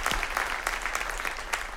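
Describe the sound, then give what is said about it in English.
An audience in North Attleboro applauding to welcome the Taunton campus: dense, steady clapping that stays even and fairly loud throughout, with no voices. “Let's give them a big hand. Welcome them in.”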